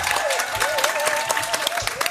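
A live studio audience applauds at the Mot pour Mot radio festival at the Grande Halle de la Villette in Paris. The clapping is dense and sustained throughout, with crowd noise mixed in.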